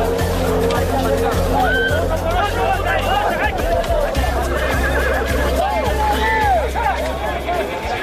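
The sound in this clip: Hardy, well-fed Lakai horses bred for the ulak mounted game neigh and whinny again and again in loud, wavering cries over a background of crowd babble.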